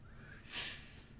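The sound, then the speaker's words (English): A person breathes out slowly during meditation: a single soft, airy exhale, faint and brief, surrounded by quiet. “I just breathe into that area. And as I breathe out, I just imagine the ease spreading”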